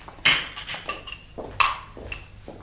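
Dishes and spoons clatter as they are set down on a table while it is cleared after a meal: a few sharp clinks and knocks of crockery and cutlery at uneven intervals, loud against a quiet background.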